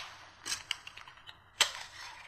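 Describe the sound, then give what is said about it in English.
Adhesive tape being pulled and pressed down to join folded edges of wrapping paper: quiet, with a few short crackling rips and a sharper tearing burst near the end. “two more pieces. And just fold over the edges and tape together.”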